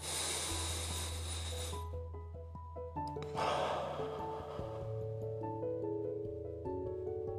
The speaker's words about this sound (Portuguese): Quando você respirar, enche os pulmões de ar densamente assim, ó.